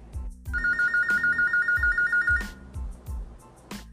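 A telephone rings for an incoming call with a rapid electronic trill at a steady pitch, one burst lasting about two seconds, over a regular, thumping low beat.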